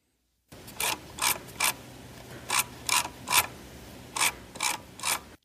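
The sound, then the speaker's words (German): A computer mouse scroll wheel turning in three short bursts of rapid ratcheting clicks, each burst split into about three quick spins, crisp and fairly loud against silence. “Ist ein Mausrad. Ein Mausrad, genau.”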